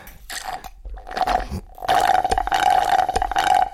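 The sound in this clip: Slurping through a metal straw at the bottom of an almost empty glass with ice cubes: a rough, gurgling suck with a whistling tone, broken at first, then drawn out and continuous.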